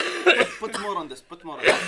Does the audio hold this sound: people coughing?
yes

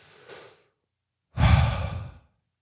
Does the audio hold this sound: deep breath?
yes

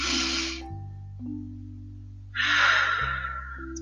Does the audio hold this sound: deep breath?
yes

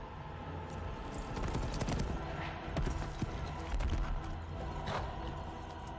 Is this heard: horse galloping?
yes

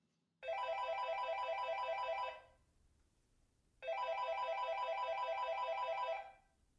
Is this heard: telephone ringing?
yes

